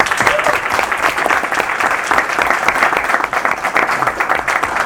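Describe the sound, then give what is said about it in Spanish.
Audience applause greeting an introduced guest: dense, steady clapping, loud and even for about five seconds with no voices over it. “Él es Francisco Zamudio, un aplauso por favor.”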